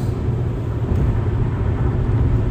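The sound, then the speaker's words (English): Steady low road rumble from a car driving over a bridge from Jacksonville, Florida, toward the Georgia state line, a continuous, loud drone with no breaks and no talk. “I'm driving over a bridge right now from Jacksonville, Florida, over to the Georgia state line.”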